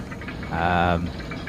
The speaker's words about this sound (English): On the other side of the railing you can see that there is a huge churning cauldron of water.